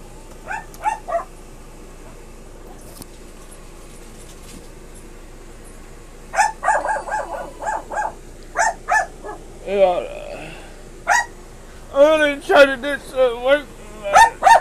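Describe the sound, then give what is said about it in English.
A dog barks in the background, quiet at first, then in repeated sharp bursts through the second half, with some talking alongside. “Excuse the dog behind you guys”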